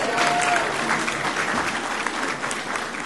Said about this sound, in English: Give Noah a hand, will you?